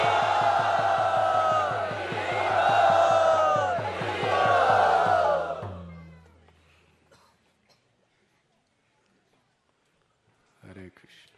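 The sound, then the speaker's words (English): A crowd of devotees loudly shouts and cheers a welcome for a dedicated brahmachari and dear friend, many voices roaring together for about six seconds before fading, then a brief burst of voices near the end. “Let us welcome him so loud that wherever he is, he may hear us. Hari!”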